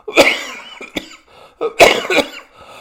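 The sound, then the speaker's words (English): Deep coughing from a person: two harsh, loud coughing bursts with a brief smaller cough between them, alone with no talk. “Sorry about that. That hardly ever happens on the air. Had a deep cough there just a minute ago.”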